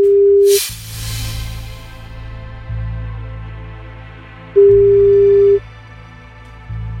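A telephone ringback tone as a radio phone-in contest calls a listener: two long, steady, mid-pitched beeps separated by a few seconds of pause, over a continuous low background bed.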